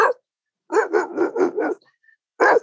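A man imitates a dog barking, the kind of call meant to set off a chain of barking across a neighbourhood: a rapid run of five rough barks, then one more after a pause, with another cut off at the start.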